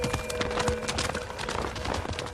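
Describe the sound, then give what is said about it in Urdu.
A horse's hooves clip-clop in many quick, irregular knocks as it is led away. The beats are fairly loud and busy, with no pauses. “گھوڑا کہاں لے جا رہی ہو؟ میں اس سواری کے بغیر کوفہ نہیں پہنچ سکتا ہوں۔”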